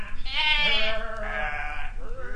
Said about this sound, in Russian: Пошли! Пошли! О, овцы двинулись за ним вдоль улицы.